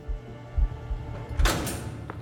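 A heavy, secure prison door swings open: a few soft low thuds, then a brief bright metallic clank and scrape, with quiet fainter knocks trailing after.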